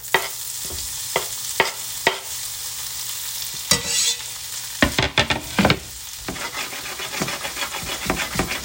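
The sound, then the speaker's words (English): Green onions sizzle in melted butter in a pan, a steady frying hiss broken by many sharp scraping strokes as a utensil stirs them. “Alright, that butter's gonna melt and green onions are going on right now.”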